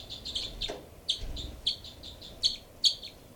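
Two birds call with a run of short, high chirps, repeated many times at an uneven pace, a few notes noticeably louder than the rest, over a faint low rumble.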